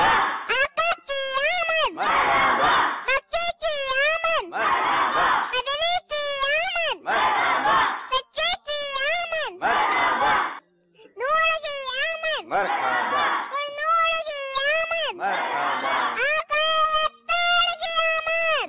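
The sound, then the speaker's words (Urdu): Children in a crowd chant religious slogans in unison with raised hands, their voices coming in loud repeated bursts separated by short pauses. “ان کو شہد کی بوتل ہم پیش کرتے ہیں اور اب نعرے بھی لگاتے ہیں، ٹھیک ہے؟ تمام مدنی منع نعرے کا جو ہے جواب دیں گے جوش میں ہاتھ اٹھا کے”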